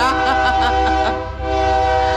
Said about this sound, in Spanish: con máquina de tren como el de ahorita.